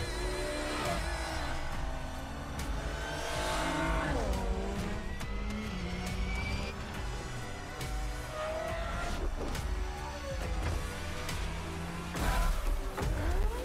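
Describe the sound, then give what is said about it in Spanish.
Racing cars roar through a rainy race in a racing video game, a dense, continuous engine din whose pitch keeps shifting, with tire squeal mixed in. “Una carrera ahí bajo lluvia, que era lo que se pedía, que Forza 5 no lo tenía, es cambio de meteorología.”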